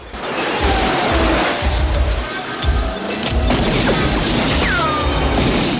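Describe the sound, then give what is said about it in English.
A city bus slams into a car in a loud, sustained crash: dense roaring noise with heavy low rumbling and scraping, holding steady for several seconds. “The bus slams into Ridzik's car.”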